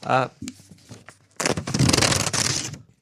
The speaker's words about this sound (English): I ripped a good chunk of this one off trying to rip it off.